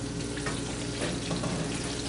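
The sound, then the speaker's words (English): Food frying in oil in a wok gives off a loud, steady sizzle, a dense continuous crackle with no break and no talk. “So then you can fry, put in the oil and fry it. And is this an authentic Indian? No. Just like this. Wok? Yes. Do like this, turn it and fry it.”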